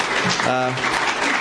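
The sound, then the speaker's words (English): Audience applause for a speaker's talk, a dense, steady patter of many hands clapping for the whole moment, with a brief voice rising over it midway. “If you're enjoying my talk so far, let me know with your clapping.”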